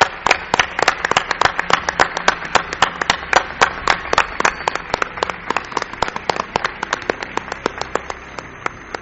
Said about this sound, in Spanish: Yo quiero un aplauso para mi buen amigo, querido Gonzalo Pérez Sarró